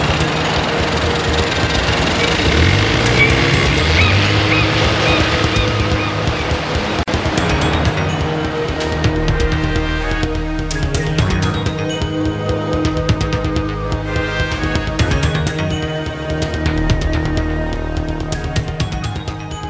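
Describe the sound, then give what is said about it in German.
A motorboat speeds out to sea with a loud, steady engine drone and a constant wash of water noise, many small splashes or patters ticking through the second half. “Der seltsame Sam jagte mit dem Motorboot in die See hinaus”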